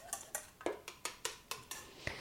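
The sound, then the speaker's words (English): Whisk or fork clinking against a bowl while an egg is beaten for scone batter: a steady series of sharp, bright taps at a quick, even rhythm, fairly faint and with no voices. “Then whisk your egg a bit. You want to just sort of scramble it up a little bit using a whisk or a fork, whatever's handy.”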